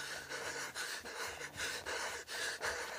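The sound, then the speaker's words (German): Heavy, rhythmic breathing in a radio drama, a steady run of quick pants and gasping breaths, loud and alone with no speech. “Laub raschelt wieder. Und Füße laufen wieder. Und Atem atmet wieder.”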